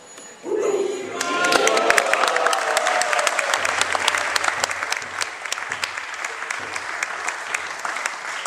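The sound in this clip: Audience applause for a speaker at a lecture, a loud burst of clapping that starts abruptly and holds steady throughout, with some voices in the crowd.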